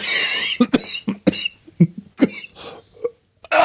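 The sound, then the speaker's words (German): Harsh coughing from someone who has choked, a string of sharp, uneven bursts separated by short gaps, rough and loud, with a breath near the end. “oh, Entschuldigung, ich habe mich total verschluckt.”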